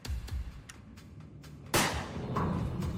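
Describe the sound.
A single sharp gunshot sound effect from a dramatized kidnapping story in which a captor is accidentally shot. It bursts loudly from a low, rumbling background and leaves a lingering, decaying tail.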